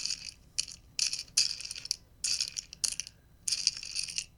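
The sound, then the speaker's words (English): Jelly beans rattle and clatter in an office candy bowl in several bright, crisp bursts of small hard pieces shaken together, with brief pauses between the bursts. “it's jelly beans in a candy bowl”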